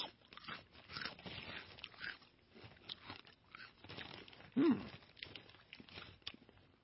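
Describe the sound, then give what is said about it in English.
Someone chews a crunchy cheese-flavored snack with a lager taste, producing quiet, irregular bites and crunches, with one sharper crunch near the end. “I'm getting a little lager taste right now. With a little cheese. Hold on, I'm taking another taste.”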